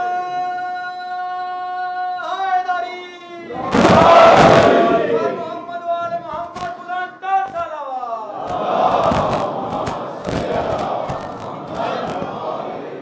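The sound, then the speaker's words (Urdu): A crowd shouts the Naara-e-Haidari religious slogan. A sustained lead voice calls out and a loud massed roar answers. More calling follows, then a longer stretch of rough crowd shouting. “صلوات مکمل ہو گئی تو ان کی فرمائش پوری کیجیے، اور نعرہ حیدری لگا رہے ہیں، کیا نہیں لگائیے گا؟”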